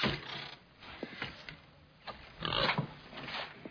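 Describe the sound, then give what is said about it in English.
A pig grunting and oinking in short, irregular snorts, fairly faint, with a louder, denser cluster of grunts toward the end and no talking. “I brought you this pig.”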